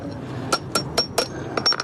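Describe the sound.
Metal hammer striking a leftover bolted electric charging-post base to knock it off the ground in a market parking lot: a series of sharp, ringing metallic clanks at fairly even intervals, with no talk.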